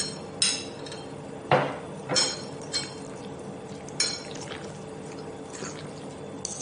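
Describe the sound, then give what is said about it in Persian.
Cooked pasta being stirred into sauce for a pasta salad, a utensil clinking against the bowl in a few sharp, irregularly spaced knocks over a faint, soft background. “حالا پاستایی رو که پخته بودیم بهش اضافه میکنیم، کم کم اضافه میکنیم و هم میزنیم که سس به خورد پاستاها هم بره.”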